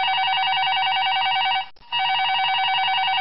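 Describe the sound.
A telephone rings with an incoming call in a radio studio. The steady, buzzing electronic ring breaks off for a moment midway, then resumes.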